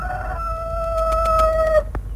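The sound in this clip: A rooster crows once, a single long, steady call held for nearly two seconds before breaking off abruptly, loud over a low background rumble.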